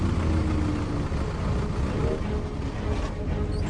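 A delivery vehicle's engine idles on a city avenue, a steady, continuous low rumble with a faint mechanical hum that barely changes throughout.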